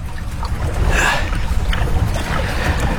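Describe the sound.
Water rushes and washes steadily around a small rowboat as a large fish drags it along at sea. The sound is a continuous low churn with soft, splashy swells and no voices.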